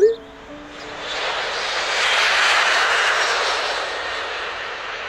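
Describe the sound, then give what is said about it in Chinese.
An airplane passes overhead near an airport, its engine roar swelling from a faint hiss into a loud, broad rumbling rush that holds steady for several seconds before easing slightly. “呢度离机场好近，每隔一段时间就有飞机经过。”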